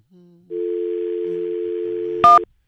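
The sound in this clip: A telephone dial tone hums steadily for under two seconds, then cuts to a single short, bright dialing beep. A few faint, low tones come before the dial tone.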